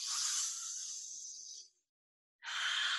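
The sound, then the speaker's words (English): Group breathing during a mass meditation for global peace: a long, steady breathy rush of air, then a silence of under a second before the next breath starts, with no talking. “Loving breaths in, loving breaths out. Three more. Two more.”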